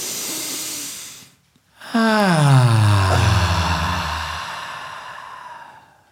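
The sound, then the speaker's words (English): A deep breath drawn in as an airy, noisy rush lasting about a second, then a brief silence before a long voiced sigh that falls in pitch and slowly fades. “Take a deep, deep, deep breath in.”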